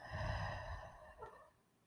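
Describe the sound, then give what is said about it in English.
A single deep breath taken slowly in and out as a calming, mindful exercise. The soft, sustained, airy rush holds steady, then fades away toward the end. “Inhale. Exhale.”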